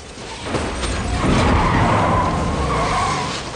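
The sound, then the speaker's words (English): Tires screech and a car roars in a film action scene as a truck pulls out, and the car flies up, spins and crashes, flipping over. A loud, continuous skidding noise swells after half a second, holds, then eases toward the end. “Then a truck pulls out in front of Dom. He flies up in the air, spinning over and over. Then crashes to the ground and flips.”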